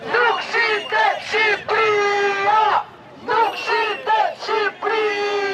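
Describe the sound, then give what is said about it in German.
Protesters at an evening anti-government march in Albania chanting that the country is not for sale, a loud rhythmic crowd chant of short punchy syllables ending in a long held call, the phrase repeated twice. “Albanien ist nicht zu verkaufen, rufen die Demonstranten.”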